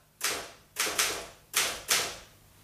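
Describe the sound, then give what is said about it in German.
A Remington typewriter typing a type sample: five sharp, bright clacks in an uneven rhythm, each a crisp strike with a short decaying tail, alone with no voices. “Bisschen tippen. Nur eine Typenprobe.”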